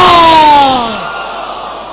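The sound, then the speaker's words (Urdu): A crowd at a religious sermon calls out a drawn-out salaam greeting loudly and together. The chanted tone slides down in pitch and fades into a low crowd murmur. “آواز بلند، سلام”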